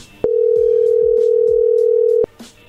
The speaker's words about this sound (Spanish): A ver, le estamos marcando, pero no contesta. A ver, ahí va de nuevo.